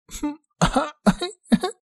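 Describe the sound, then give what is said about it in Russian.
A voice imitating a young woman's coughing and throat clearing: four short, voiced two-part bursts in even succession, fairly loud, with brief silences between them. “Кашлянул кто-то из девушек.”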